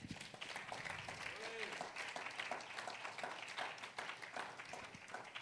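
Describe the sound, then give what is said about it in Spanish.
Applause rises from a Spanish-language church service, a continuous patter of many hands clapping with voices audible underneath. “Demos un aplauso al Amen. Señor.”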